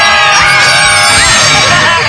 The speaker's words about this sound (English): Good screaming, everybody.